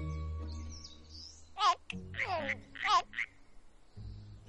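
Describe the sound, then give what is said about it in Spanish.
Two frogs croaking as they hop away in a fantasy film scene: a few short, bright, warbling croaks in quick succession stand out over a low, steady background hum. “Dos ranas se alejan saltando.”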